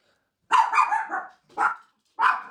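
A pet dog barks angrily in a few sharp bursts: a quick run of barks, then two separate single barks, loud against silence.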